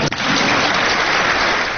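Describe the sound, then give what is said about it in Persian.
Audience applause at a talk show, a dense, steady patter of many hands clapping at full loudness through the short stretch, with no voices over it. “به به همه واسش دست زدن.”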